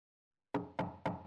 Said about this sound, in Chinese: 儿子，妈妈回来了，快给妈妈开门啊。